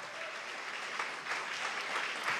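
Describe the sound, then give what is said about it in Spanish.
Applause from a church audience during a sermon: a steady, sustained patter of many hands clapping, fairly quiet throughout. “Si eso merece también un aplauso a mi Señor.”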